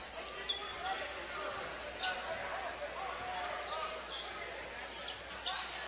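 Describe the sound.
A basketball is dribbled on the court during a game, giving a few faint, irregular thuds. The thuds sit under a steady murmur of crowd noise.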